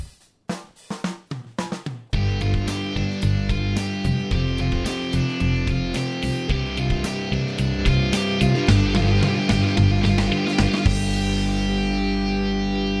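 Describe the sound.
Television intro music made in GarageBand on an iPad opens with a quick burst of staccato hits, then breaks into a dense, driving distorted groove with echo effects that carries on steadily before tailing off at the end.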